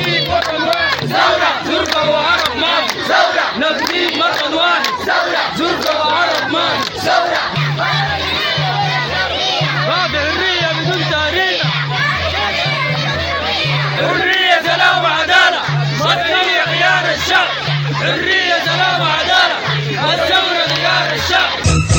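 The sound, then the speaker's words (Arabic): Crowd of protesters chanting in unison against the trial of Awakening Council members, loud rhythmic shouted chants repeating steadily throughout with many voices together. “كما رفض المحتجون المحاكمة وقالوا إن التهم الموجه لمنسوبي مجلس الصحوة انتهت بسقوط النظام البائد وبتشكيل الحكومة الانتقالية. وأضافوا في هتافات في هذا الخصوص”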